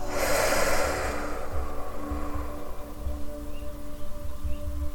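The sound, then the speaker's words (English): A deep breath is drawn in and then let out through the mouth during guided relaxation. The airy breathing is soft, heard over quiet, sustained tones. “Taking a nice deep breath in now and out through your mouth.”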